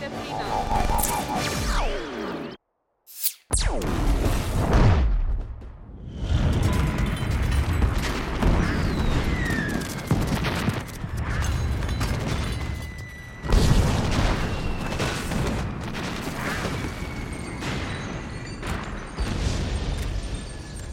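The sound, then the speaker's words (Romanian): An explosion in an animated film: a moment of silence, then a sudden loud blast that gives way to a long, roaring, crackling rumble of action noise lasting to the end. “Cred că ar fi putut supraviețui exploziei.”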